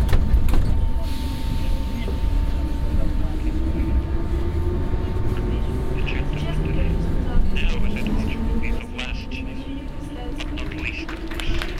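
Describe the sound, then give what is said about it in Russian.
Minsk metro train pulling away from the station, its motor whine climbing steadily in pitch over a constant rumble and a steady high tone, with a voice heard over it. “Осторожно, двери зачиняются. Наступная станция Академия наук.”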